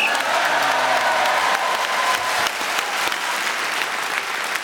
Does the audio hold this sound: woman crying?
no